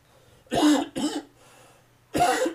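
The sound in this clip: A loud, harsh cough in three chesty bursts: two close together, then a pause before a third.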